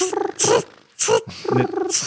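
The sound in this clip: A voice imitates a cricket's chirping with a few short, raspy, buzzy bursts full of high hiss, uneven in rhythm and fairly loud.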